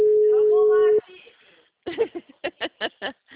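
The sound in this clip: A telephone line ringing while a call is placed: one steady, mid-pitched ring tone lasting about a second, with a voice faintly over it, followed by a person talking.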